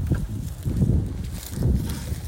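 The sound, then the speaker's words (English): Wind buffets a microphone outdoors in the bush, a low rumbling roar that swells and eases in a few gusts without pause. “I hope that wind's not too distracting.”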